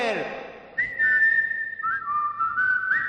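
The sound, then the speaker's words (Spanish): A playful whistle in a car-service advert, meant as a car whistling: a clear, bright held note that steps down to a lower held note and carries on steadily to the end. “Y si ya quieres que tu coche te silbe”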